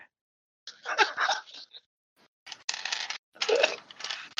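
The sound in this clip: Dice being rolled, clattering in a few short, bright rattling bursts separated by brief silences, without voices.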